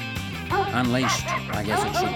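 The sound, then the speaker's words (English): Dogs bark ferociously at a door in a house, defending it against an intruder: a quick, continuous run of sharp, loud barks and high yips, packed close together with almost no pause. “unleashed our most ferocious barrage of barking.”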